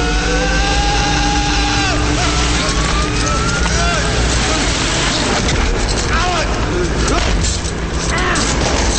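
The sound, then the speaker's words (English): Large fan in a deep circular air shaft picking up speed, a loud, dense droning rumble with whooshing turbulence that runs steadily throughout. “The fan picks up speed, spinning him at the end of the rope against the circular walls of the shaft.”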